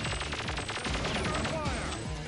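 Rapid gunfire in a Nintendo action game: dense, continuous bursts of loud shots and explosions crowd together with no pause, forming a harsh, steady barrage.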